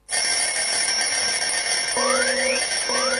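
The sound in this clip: An alarm clock rings on a loud, steady, bright, high-pitched tone with a metallic edge, sounding alone and without a break for about three seconds. Short rising tones join in during the last second or so.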